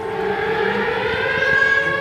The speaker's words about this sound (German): Kurz darauf heulen tatsächlich die Sirenen. Luftalarm.